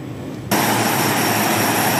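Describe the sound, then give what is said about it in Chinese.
A military transport aircraft's engines roar at takeoff during a navy heavy airdrop training exercise. The loud, broad roar cuts in abruptly after a quiet half second and then holds steady and powerful. “随着起飞指令下达，运输机急速升空，飞向任务空域。”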